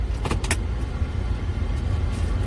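Car being driven straight along a road, a steady low engine and road rumble that fills the whole stretch, with a few brief higher clicks near the start.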